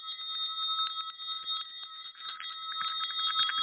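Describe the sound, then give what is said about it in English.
A bell rings on and on in a steady, faint shimmer of high held tones. Soft clicks and taps sit under the ringing throughout. “can you hear that? That activation right there, just the ringing of the bell that we've been doing here for more than 15 years on Planet Remix”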